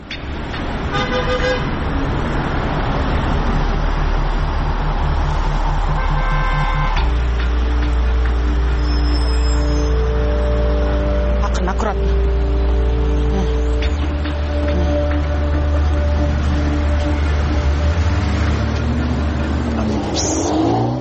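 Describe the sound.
A city bus engine heard while riding on board, a loud steady low drone that shifts in pitch a few times as the bus changes speed.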